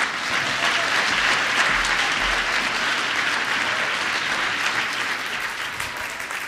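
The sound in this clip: Sustained audience applause welcoming a speaker to the stage: a dense, even wash of many hands clapping that holds steady throughout and eases off slightly at the end.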